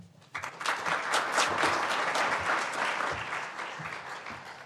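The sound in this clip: Steady applause from a seminar audience welcoming a speaker, many hands clapping densely and evenly at moderate loudness before fading slightly at the end.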